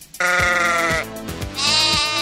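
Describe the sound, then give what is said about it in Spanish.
A sheep bleats a few times in loud, wavering, nasal calls, the bleats following one another closely with no voices heard. “yo dije la oveja, ahora está sonando la oveja”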